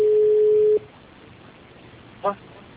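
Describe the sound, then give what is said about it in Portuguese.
An incoming call signals over a telephone line with one steady electronic tone of just under a second that stops abruptly, followed by quiet line hiss and a short, faint blip. “só um minutinho que o Luiz, no gestor, tá ligando pra mim”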